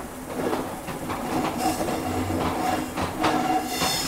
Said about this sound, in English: I hear we're coming into an exchange. So we're almost at a station. Yep, it's a station.